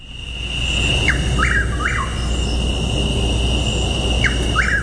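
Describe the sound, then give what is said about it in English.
Chuck-will's-widow calls come in two phrases, each made of three quick whistled notes, over a steady high background drone with no voices. “And then Chuck Will's Widow, let's listen to that.”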